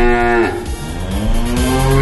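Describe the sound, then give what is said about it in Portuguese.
A cow moos loudly with no other sound, a deep, drawn-out bellow whose pitch wavers and dips partway through. “registrado aqui o nosso mugido. Muge pra ele, muge pra ele.”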